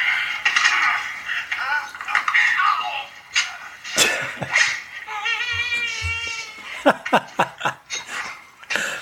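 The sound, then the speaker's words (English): A film villain, a big man, cries out as a knife goes through his hand: strained, wailing voiced cries that bend in pitch, mixed with a few sharp clattering hits, loud and alone. “I'm just going to play this through my mic here, of the noise that the villain gets when he gets a knife through the hand.”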